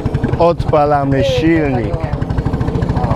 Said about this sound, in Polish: odpalamy silnik i ruszamy w drogę do brzegu.